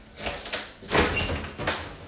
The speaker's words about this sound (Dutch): En dan gaat de deur open.